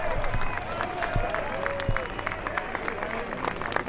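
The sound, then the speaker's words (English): A golf crowd applauding and cheering as a player enters the first tee: steady, dense clapping and crowd noise, moderately loud and sustained throughout, with a voice talking briefly over it. “So that was the sound of Tiger entering the first tee box. And let's, here it is.”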